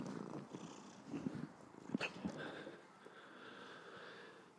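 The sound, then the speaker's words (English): A cat crawling about and purring: a faint, low, continuous rumbling purr with a few soft snuffling sniffs in the middle, and no talk. “Sorry, there's the cats crawling. So if you hear purring or something too.”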